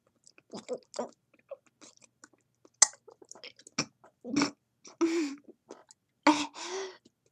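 Choking and gagging sounds from a person during oral sex: scattered wet mouth clicks and throat noises, then several longer strained gagging bursts. They are moderately quiet, with no talking.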